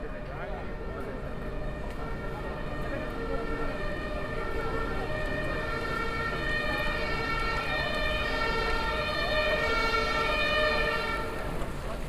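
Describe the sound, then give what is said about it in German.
Ambulance siren sounds as a loud, sustained, steady electronic tone with rich harmonics, holding without pause for about twelve seconds. “Der Krankenwagen bringt mich in die Notfallambulanz.”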